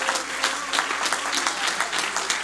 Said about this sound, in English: Why don't we give him a good hand clap of praise?